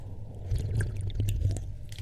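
Close-up chewing and mouth sounds from an ASMR tasting of hard coffee: soft wet squishes and small clicks over a low, steady hum.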